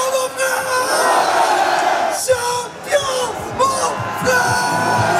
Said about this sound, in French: Sur scène, un à un, les joueurs sont acclamés avec un chouchou.